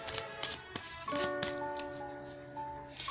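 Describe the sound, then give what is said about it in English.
Oracle cards from The Enchanted Map deck being drawn for a daily tarot reading, several soft, brief taps and slides of card stock, quiet, over a sustained chime-like tonal background. “I'm going to go ahead and um, pull the oracle cards, the enchanted map.”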